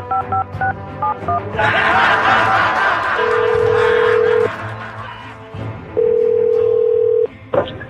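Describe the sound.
Telephone keypad tones dialed in a quick run of several short beeps, then two long steady ringing tones on the line, with voices and laughter in the background between them.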